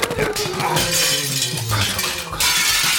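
Glass shatters as an object is thrown out of a window: a loud, noisy crash with scattered bright clinking, then a second surge of noise near the end.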